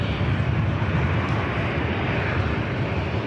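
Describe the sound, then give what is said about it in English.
An airplane roars as it aborts a rough landing and goes around. The sound is a loud, dense, even rumble that holds steady without a break or a change in pitch. “Going around, that is the roughest landing I think we've ever caught on our broadcast.”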